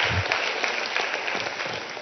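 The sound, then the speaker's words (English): Church audience at Crossroads giving a warm round of applause to welcome a guest speaker. Dense, even clapping runs steadily throughout with no voices over it. “Please join me in giving Ray a warm Crossroads welcome.”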